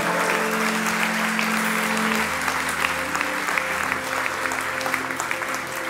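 An audience applauds during a church service after a prayer, steady, dense clapping that holds at an even level for several seconds.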